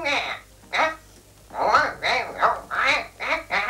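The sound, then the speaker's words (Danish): A cartoon duck character's quacking voice answers the telephone in a 1949 recording, with a quick string of garbled, nasal quacky syllables. Two short bursts come first, then a longer, denser run of several rapid bursts. “det er så stort tillykke til Anders And, en af verdens mest kendte tegneseriefigurer”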